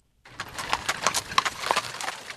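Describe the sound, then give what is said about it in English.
A straining horse pulls a jet-black Amish buggy in cold weather at Arcola, Illinois, its hooves clip-clopping in a steady rhythm of many crisp, moderate knocks. “Clouds of steam billow from a straining horse's nose as dozens of Amish families rein in jet black buggies.”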